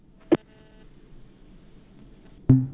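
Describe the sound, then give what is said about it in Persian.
A listener's telephone call on a call-in line cutting off: a sharp tonal blip, then a faint steady hum, then a second, louder tonal burst at the end. “قطع شد تلفن یک شنونده دیگر رو میگیریم”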